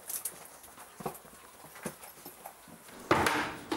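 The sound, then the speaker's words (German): Food is placed into an animal's box in a big-cat predator enclosure: a few hollow wooden knocks and thuds, followed by a louder, longer scraping burst near the end. “Gut, dann habe ich jetzt das richtige Futter und lege es ihm dann in die Box rein.”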